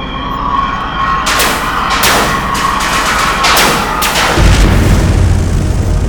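Spaceship weapons fire at enemy fighters in several sharp blasts over a loud, constant roar, and a deep rumbling surge takes over near the end.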